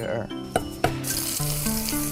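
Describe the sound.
Sheep intestine with garlic slices is stir-fried over high heat, giving a continuous loud sizzle. A couple of sharp clanks of stirring break through, and a melodic background tune plays underneath.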